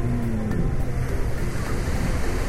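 Ocean waves wash in at a beach on a sunny early morning, a steady, loud surf roar mixed with wind noise that stays even throughout with no voices.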